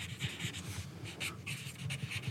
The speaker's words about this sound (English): Your pen is very scratchy.